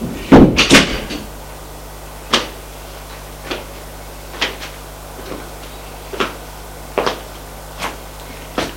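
An apartment door opening and closing: a quick cluster of knocks and clatters at the start, then a series of evenly spaced soft taps and clicks over a quiet background hum.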